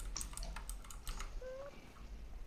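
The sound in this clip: Typing on a computer keyboard, a quick flurry of faint clicks followed by sparser taps, with a brief thin tone in the middle.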